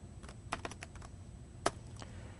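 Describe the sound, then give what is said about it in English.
Rapid typing on a computer keyboard as code is entered, many crisp, irregular key clicks with a few sharper, louder strikes, alone without voices. “I type protected void, and I've got it written down because I keep typing this over and over and over again”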